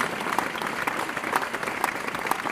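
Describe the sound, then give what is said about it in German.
Audience applause welcomes a musician onto a stage. Many hands clap in a dense, steady wash at even loudness from start to end, with no voices. “Mit einem Riesenapplaus für Nils Landgren!”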